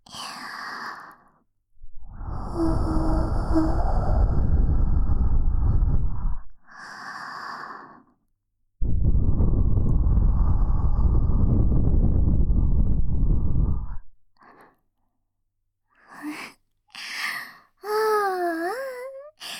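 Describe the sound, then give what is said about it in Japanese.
Soft breath blown gently into a listener's ear: three long, airy gusts, then a few short puffs, with a brief high, wavering voice near the end. “わらわに耳をふうふうされて感じてるんじゃない？じゃあ反対側も。”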